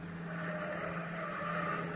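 Steady engine rumble and traffic-like hiss from a taxi cab driving along Broadway in New York, a radio drama effect, continuous and even in loudness throughout.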